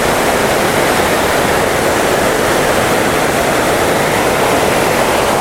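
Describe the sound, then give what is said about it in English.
A waterfall and river rush in a loud, steady, hissing roar of falling and flowing water on a hiking route, constant in level with no breaks and no voices. “The waterfall is around this corner, and it looks like the only way to get to it across the river.”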